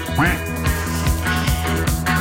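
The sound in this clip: Duck quacking, a few nasal, short quacks repeating over a steady tonal musical background.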